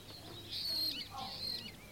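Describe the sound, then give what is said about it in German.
Starlings chirping in a garden: faint, thin high whistles and quick chirps in two short phrases. “Die Stare zwitschern.”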